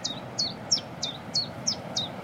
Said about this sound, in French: Puis la bouscarle qui chante derrière nous, en plus. Ça, c'est sympa. Ça, c'est un des oiseaux les plus faciles à reconnaître au niveau chant. C'est deux notes.